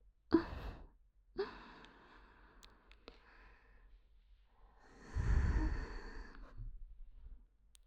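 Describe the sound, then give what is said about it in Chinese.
Heavy breathing from one person: two sharp, quick intakes of breath early on, then a longer, louder, rough exhale, with quiet breathy pauses in between. “呼吸。变得有些粗重了呢。”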